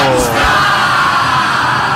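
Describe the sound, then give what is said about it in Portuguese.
Palmeiras supporters celebrate in a stadium during a football match against Fortaleza, a loud, dense mass of yells, whoops and bellows held without a break. “Eu estou arrepiado com a festa da torcida do Verdão.”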